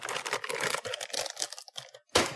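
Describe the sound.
Crinkling and tearing of a plastic food package holding gummy eyeball candies, with rapid rustling bursts, a short pause, then one more sharp rip.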